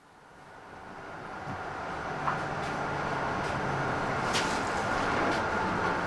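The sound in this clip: Train approaching Fredensborg Station: a steady rumbling drone that grows louder over the first seconds and then holds, with faint rattles and a few light squeaks on top.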